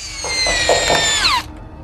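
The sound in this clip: A power tool driving screws to fasten porch windows shut: a loud, steady high whine with a few pulsing bursts, its pitch sliding sharply downward as the motor winds down and stops.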